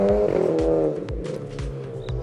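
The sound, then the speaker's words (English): Fast cars revving and speeding, driven by young people: a loud, continuous engine roar over a pulsing low rumble, with the drone easing slightly in level partway through. “That sound you hear, ladies and gentlemen, is young people in fast cars mixed with a little bit of stupidity.”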